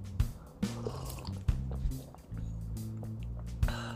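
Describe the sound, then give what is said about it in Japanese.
Quiet sipping of hot Guatemala drip-bag coffee from Good Time Coffee: a few soft slurps and small liquid clicks, spaced out over a faint low hum. “今夜はですね、グッドタイムコーヒーさんの、えー、コーヒードリップバッグ、グアテマラをいただいております。”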